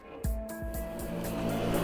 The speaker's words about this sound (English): Yeah, that is the sound of Kilburn in northwest London